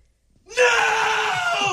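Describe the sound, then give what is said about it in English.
A person yells loudly into a phone during a contest to reach a record decibel reading: after a brief silence, one continuous, piercing scream starts abruptly and holds steady at full strength to the end. “Yelling right into the phone.”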